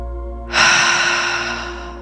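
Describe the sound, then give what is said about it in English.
A slow, released exhale of breath starts suddenly, then fades gradually over the next second and a half above a faint steady hum. “Releasing the breath pattern and just coming back to whatever your normal breath is”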